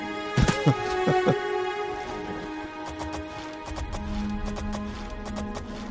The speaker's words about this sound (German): Man kann auf Wegen reiten, man kann aber auch daneben reiten, also einfach querfeldein.